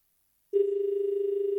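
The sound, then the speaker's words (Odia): A telephone rings for an incoming call: after half a second of silence a steady mid-pitched electronic tone starts abruptly and pulses in a rapid, even flutter until the end. “ଆମର କେଉଁ ଭଉଣୀ ବର୍ତ୍ତମାନ phone କରିଛନ୍ତି ଆସନ୍ତୁ ଦେଖିବା।”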